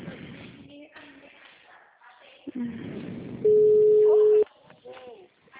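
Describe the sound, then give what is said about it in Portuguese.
A steady ringback tone on an outgoing phone call sounds once for about a second, a flat mid-pitched hum. People talk before and after it. “Tá ligando.”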